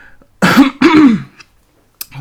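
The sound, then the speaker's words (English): A woman clears her throat in two rough, voiced bursts in quick succession. A short faint click follows near the end. “she's also got some frogs in her throat.”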